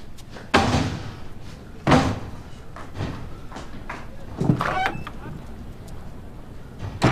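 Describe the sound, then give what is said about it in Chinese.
A door being shut and locked, with a couple of sharp thuds followed by lighter knocks and clicks against a faint background. “锁门去了。”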